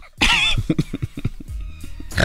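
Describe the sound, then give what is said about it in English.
A person imitates a pig with a rapid series of short, throaty snorts and grunts, loud and uneven in rhythm, on a talk radio show. “How do you snort like that?”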